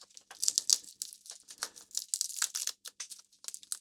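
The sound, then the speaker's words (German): Papery skin being peeled off garlic cloves: faint, dry crinkling and crackling in many quick, irregular bursts with short pauses between them. “Das heißt, einmal kurz die Haut abziehen, damit sie soweit fertig werden. Riecht schon ziemlich gut nach Knoblauch.”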